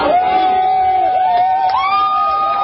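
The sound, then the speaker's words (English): Protesters in Portland cheer after federal troops leave the area: a sustained crowd roar with a steady, held whoop that stays loud and continuous throughout. “Protesters in Portland cheered after federal troops left the area.”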